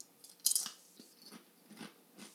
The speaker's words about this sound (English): Excuse me for chewing a chip on my webcast